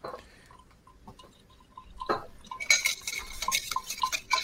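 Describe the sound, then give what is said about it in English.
Stirring a bourbon Manhattan cocktail, with quiet clicks at first, then many rapid, light metallic clinks and tinkles of a spoon against glass that grow busier in the second half. “So we're going to take that and we're just going to stir it.”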